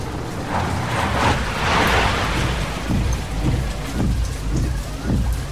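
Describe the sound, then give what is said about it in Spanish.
Rain falling at night, a steady, dense patter that stays loud and continuous throughout. “Es de noche y llueve.”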